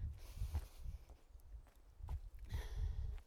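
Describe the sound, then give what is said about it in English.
Footsteps of someone walking, heard as several soft, low, dull thuds in an uneven rhythm over a faint hiss, with no talking. “Time to walk.”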